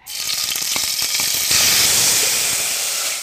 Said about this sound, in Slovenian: Tako in v tem olivnem olju bom najprej opražil čebulo.